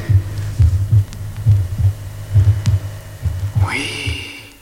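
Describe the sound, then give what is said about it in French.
Heart sounds heard through a stethoscope at the fifth left intercostal space, with the mitral valves snapping shut: a steady run of many low, soft thumps over a faint hum, and a brief rising whine near the end. “Oh, je perçois très distinctement le claquement de fermeture des valves mitrales.”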